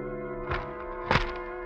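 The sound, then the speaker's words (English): A newspaper is shoved under an apartment door at six in the morning, making two soft thunks over a steady low hum, the second thunk louder. “Finally, at 6 o'clock in the morning, the newspaper is shoved under your apartment door.”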